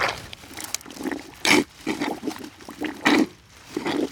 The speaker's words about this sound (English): he's wielding a posthole digger, think giant salad tongs, which he promptly plunges deep into the ground. As you can hear, things get wet pretty quick.